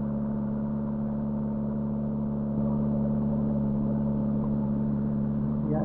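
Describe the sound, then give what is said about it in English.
A water pump runs steadily to feed a balanced hydraulic nozzle, making a continuous droning hum with a tonal whine. Its level stays even throughout, rising slightly partway through. “Yes, that background noise is a water pump running here, pumping water for this nozzle.”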